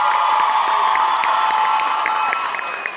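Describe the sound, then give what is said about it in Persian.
Applause and cheering from a concert audience, a dense, steady wash of clapping and shouts that holds throughout and eases slightly near the end. “به افتخارش دست بزن”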